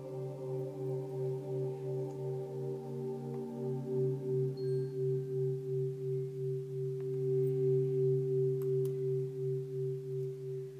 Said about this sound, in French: Le son que vous entendez est le son cardiosmose. Il va mettre votre cœur rapidement en cohérence.